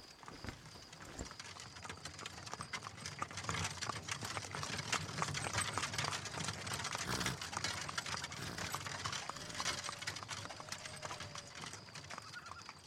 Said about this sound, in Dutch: De wagen is nog maar net de hoek om en verdween in het donker.